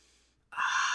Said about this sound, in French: Donc, doucement, prendre profonde inspiration, puis expire par la bouche. Inspire.